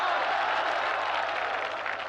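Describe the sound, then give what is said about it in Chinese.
Applause from an audience at an evening event at Peking University, a dense, continuous patter of many hands held at a moderate level throughout, with a low steady hum beneath. “你们先别鼓掌”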